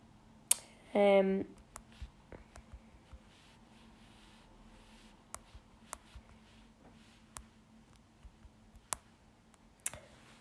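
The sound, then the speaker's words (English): Typing on a computer keyboard produces sparse, sharp clicks scattered irregularly over quiet background hiss, with a short voiced sound near the start. “Type it away.”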